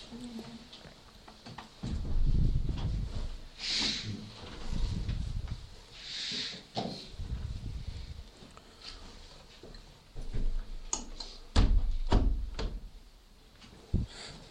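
Windows are closed during a church service: a scattered series of sliding scrapes, rattles and dull clunks, some louder knocks near the end, with quieter stretches between them.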